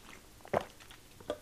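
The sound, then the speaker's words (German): Two short, soft gulps, a swallow at each, as the speaker pauses to take a drink. They are faint and spaced apart, with quiet background between them and no talking. “Ich muss aber mal kurz was trinken und ich habe gar keine Lust, das rauszuschneiden, deshalb einen kleinen Moment.”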